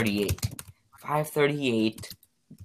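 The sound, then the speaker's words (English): Someone types on a computer keyboard, making quick runs of light plastic key clicks while a voice talks over much of it. “Why are you searching? Bro, don't type so loud.”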